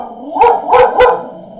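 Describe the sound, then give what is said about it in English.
A dog barks three times in quick succession, each bark loud and sharp, over a low steady background hum. “Go bark outside, Sasha.”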